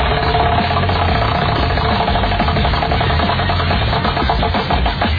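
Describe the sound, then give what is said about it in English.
A prize wheel sound effect spinning, a rapid, steady run of ticking clicks that stays loud and even throughout, with no voices. “Oh, we'll spin the wheel of topics today. For the first time, I have... Where's my prize wheel sound?”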